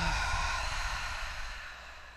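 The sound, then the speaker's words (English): A mouth exhale during a guided breathing exercise: a soft, steady, breathy rush of air heard alone, quiet throughout and fading gently toward the end. “Let's do an inhale in through our nose. An exhale through your mouth.”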